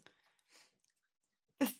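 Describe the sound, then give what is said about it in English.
A dog drinks water, making a few soft, wet lapping sounds separated by quiet gaps, then one louder splashy gulp near the end. “the noise you can hear is the dog drinking water just behind me.”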